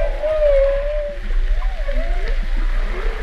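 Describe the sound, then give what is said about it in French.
An underwater trumpeting vocalization: a drawn-out tonal call with wavering pitch, followed by lower gurgling, grunting tones over a constant low rumble. “Ah là, on a carrément du trompetting sous-marin.”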